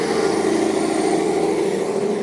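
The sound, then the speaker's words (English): A truck passes with a low, steady engine drone. The hum holds an even level and pitch throughout. “I'm sorry I let that truck pass.”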